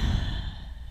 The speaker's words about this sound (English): maybe taking a deep breath in and exhaling.